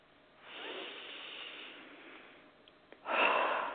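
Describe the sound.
Deep breathing during a guided relaxation exercise: a long, soft inhale, a brief pause, then a stronger, breathy exhale, faint overall and without talk.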